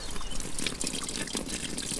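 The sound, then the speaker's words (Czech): Water trickles from a forest spring in a small valley, a steady, soft, continuous burble with no clear pauses. “od Janderovy vyhlídky vydali na krásné poetické místo, kde zurčí voda”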